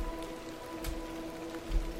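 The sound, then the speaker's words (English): Heavy rain pours down as a faint, steady hiss that fills the whole two seconds without a break. “The rain pours down.”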